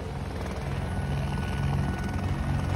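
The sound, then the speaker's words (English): A helicopter flies over a besieged hotel, its rotor thumping and its engine droning in a continuous low, pulsing roar that holds at an even loudness throughout. “That screeching noise that you can hear, that's the sound of a chopper.”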